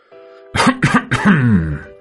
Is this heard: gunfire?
no